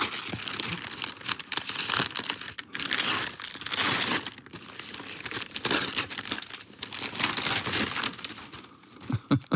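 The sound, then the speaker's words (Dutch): Crinkling wrapping paper as a gift is unwrapped, a steady, fairly soft stream of many crackles and crumples with no voices. “Zal ik dat even uitpakken? Ja, je mag het nu openmaken.”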